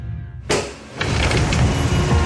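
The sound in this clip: A car door as someone gets into a car: a sharp thump, a second heavier thud about half a second later, then a steady vehicle rumble to the end.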